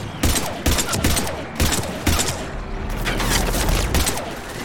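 Bursts of gunfire in a shooter video game fighting cannibals, rapid loud shots in several clustered volleys with mechanical clatter between them and no talk over them.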